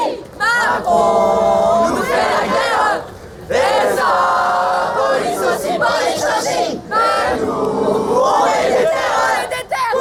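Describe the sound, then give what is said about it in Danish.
A French youth demonstration chanting a song about President Macron. Massed young voices sing loud chanted phrases in three clear bursts, with short breaks between them. “Det er jo lyden af en fransk ungdomsdemonstration.”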